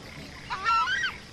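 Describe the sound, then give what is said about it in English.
A southern screamer with its chicks, heard from a boat on a river, gives a couple of loud, goose-like honking calls with a wavering pitch over a steady background hiss. “Look at this southern screamer with its chicks.”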